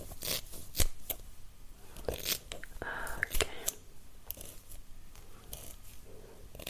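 Scissors snip close by during an ASMR fake haircut. The snips are soft and quiet, coming in many irregular bursts mixed with light rustling and brushing.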